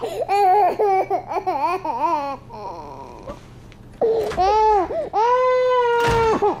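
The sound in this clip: A baby cries in loud, high, repeated wails whose pitch wavers up and down, with a long sustained wail near the end.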